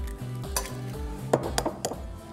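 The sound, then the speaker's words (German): A few sharp clicks and light clatter as a whole egg is added to semolina pasta dough made with finely ground durum wheat. The clicks sit over a steady tonal background. “Dafür nehmen wir Semola. Das ist nichts anderes als fein gemahlene Hartweizengrieß. So. Dann mache ich ein ganzes Ei mit rein.”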